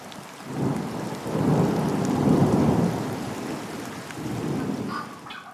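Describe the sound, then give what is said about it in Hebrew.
Long, low rolling rumbles of thunder swell over steady rain during a night thunderstorm over a rural village. A few heavy surges rise and fade without a clear sharp crack. “הבעיה הייתה שברקים ורעמים שהשתוללו במושב לא נתנו להם להירדם בקלות.”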